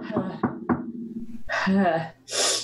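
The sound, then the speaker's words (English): Three sharp raps on a door in quick, even succession, heard under people talking, followed by further voices. “But as sunlight starts to fade, there's a rap on the door.”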